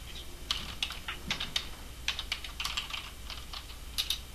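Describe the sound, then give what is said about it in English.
Typing on a computer keyboard while playing a computer game: many light, irregular key clicks, some in quick bursts, clattering steadily over a low background hum. “I hear a bunch of fucking typing.”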